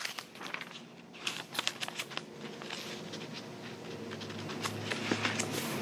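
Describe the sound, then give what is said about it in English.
Prayer book pages being turned, with two pages stuck together: dry paper rustling, crinkling and soft patter, with a cluster of crisp flicks early on, then a steady papery shuffle. “I'm turning the page, and I have two pages that are stuck together, and I don't want to. Here we go.”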